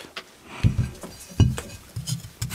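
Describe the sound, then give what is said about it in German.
A knife cuts a potato in half on a glass plate, giving a few sharp clinks and knocks of the blade against the glass, spaced unevenly over a quiet background. “Kartoffel in der Hälfte durchgeschnitten.”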